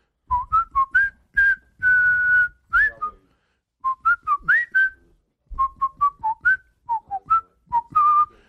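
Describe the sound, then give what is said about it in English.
A person whistles a song, the clear high melody moving through short notes and a few longer held ones, in phrases separated by brief pauses. “That was my favorite whistling song.”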